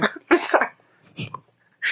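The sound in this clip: A person coughs to clear something stuck in the throat, a few harsh, throaty bursts separated by brief pauses, fairly faint and with no talk during them.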